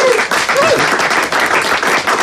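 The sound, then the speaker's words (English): An audience applauds as a hurling legend is welcomed as a guest: loud, dense, continuous clapping that holds at an even level for the whole stretch. “Give it up to the one and only TJ Reid.”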